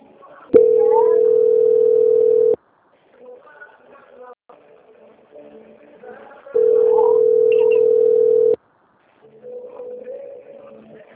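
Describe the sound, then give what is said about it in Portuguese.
A telephone tone sounds after a dropped phone call: two long, steady, mid-pitched tones of about two seconds each, separated by a gap, with brief quiet talk between and after them. “eu vou precisar refazer que a ligação caiu”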